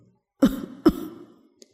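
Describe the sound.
Violent coughing from a weak, dying man who is struggling to breathe: two harsh coughs in quick succession, each trailing into a rasping fade, then a faint click. No words are spoken.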